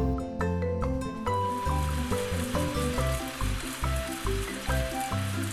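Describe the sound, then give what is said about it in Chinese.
Heavy rain sound effect in a children's audio story: a dense, steady hiss runs throughout, with rhythmic background music pulsing beneath it. “雨又下得更大了，冒险鸡这时早已全身都被淋湿了。”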